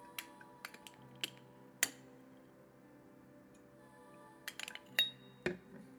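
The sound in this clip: Light clinks from the lid of a tea vessel being handled during a tea tasting: a few sharp, bright taps early on, a quiet stretch, then a small cluster of clinks near the end, with no talk.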